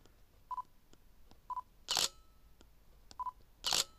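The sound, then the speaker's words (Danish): A camera photographs a bottled white-wine-and-water drink inside a large storage shed. Two loud shutter clicks sound, each preceded by short electronic focus beeps, over faint background hiss. “Prøv at tage et billede af den her engang.”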